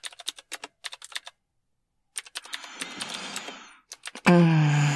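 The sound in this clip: Typing on a computer keyboard: quick bursts of sharp clicking keystrokes, a pause, more typing under a rising whooshing swell, then a bright sustained tone at the end.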